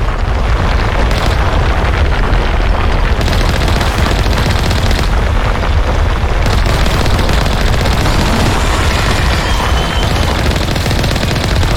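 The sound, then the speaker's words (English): Video game gunfire as tentacles are shot up: loud, continuous automatic fire with dense rapid bursts that never let up, carrying heavy booming weight throughout, with no talking over it. “All right, we shot up some tentacles.”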